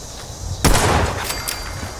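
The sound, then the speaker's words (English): Pistol gunshots in a video game: a sudden loud, sharp blast followed by a couple of fainter cracks, with a short quiet lead-in before the first shot. “Hey. This pistol's working out pretty good. Except at that distance, where it didn't do much damage.”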